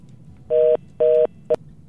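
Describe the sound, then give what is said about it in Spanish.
An incoming telephone call signal sounds as steady electronic tone bursts, two long ones and a final short one, evenly spaced and clear, with no voices over them. “Tenemos una llamada.”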